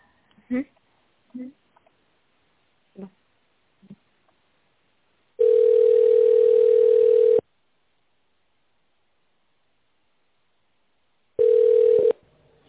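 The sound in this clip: Telephone line tone while a call is transferred: a steady mid-pitched electronic tone lasting about two seconds, a pause, then a second shorter tone, after a few brief vocal sounds.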